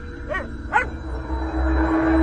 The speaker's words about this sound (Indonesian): terdengar suara gonggongan anjing tetangga yang tidak henti,